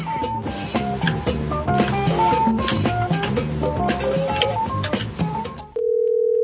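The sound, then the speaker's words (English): A telephone dial tone for a prank call, a steady, unbroken tone at the end after several seconds of busy plucked melodic music. “Let's do some more prank calls. Let's call another Arby's.”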